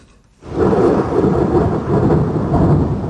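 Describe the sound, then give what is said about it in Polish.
Loud rumbling thunder during a storm breaks in after a brief quiet moment and rolls on as a steady, broad, deep roar to the end, with no voices. “Jak są bardzo głośne pioruny, to strasznie się boimy i zaczynamy się zastanawiać, czy dobrze się zabezpieczyliśmy.”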